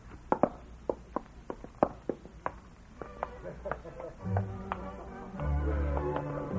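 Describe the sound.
Footsteps going down a staircase in a drama scene, a steady series of quiet, sharp taps at walking pace, with low sounds rising underneath toward the end.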